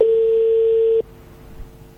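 A single steady telephone beep before a voicemail recording, holding one flat pitch for about a second before stopping abruptly, leaving only a faint low hum.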